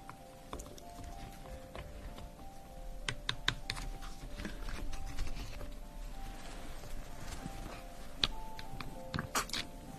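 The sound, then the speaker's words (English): Typing on a computer keyboard during a simulated hospital checkup: many quiet, irregular key clicks over a faint steady hum, with an occasional sharper tap. “The typing.”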